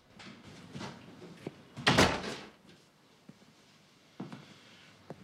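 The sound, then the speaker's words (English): An office door being shut: one loud, solid thud in the middle, surrounded by a few softer knocks and faint rustling before and after. “shuts the office door.”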